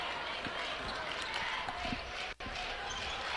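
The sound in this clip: Basketball dribbled on a court during a game, steady low thuds bouncing in a rhythm beneath loud, continuous crowd noise.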